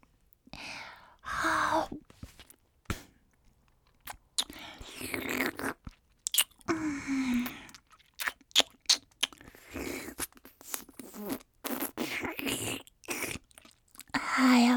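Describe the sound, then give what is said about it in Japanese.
Wet slurping and licking sounds, irregular and close, mixed with soft breathy whispering and sighs across a long stretch. “ジュルジュル音立てて舐めるなたまらんばい、ほんとやばいけん。”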